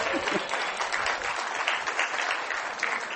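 Audience applause: dense, steady clapping from many hands that holds at an even, fairly loud level throughout without pause.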